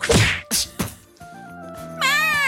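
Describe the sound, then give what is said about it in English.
A punch to the face: three sharp whacking hits in quick succession, followed by a steady tonal tune and then a loud, wavering high cry. “punch her in the face”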